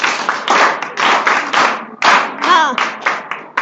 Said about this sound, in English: Please clap for the boy.